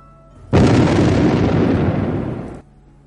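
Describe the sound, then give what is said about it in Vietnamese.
Explosion sound effect as the ground bursts with bursts of fire, a loud, roaring blast sustained for about two seconds before dropping off sharply, with a faint low hum before and after. “Mặt đất phát ra những tiếng nổ mạnh mà vạn niên huyền thiết liên bị tạc nổ lên từng trận hoa lửa cường đại.”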